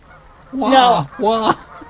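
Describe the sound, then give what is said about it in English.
A person imitates a goose honking overhead with two nasal, wavering honks. The first is longer and the second shorter, separated by a brief pause and sounding alone. “If a goose is flying overhead, and you crudely had to demonstrate what it sounds like, you might go,”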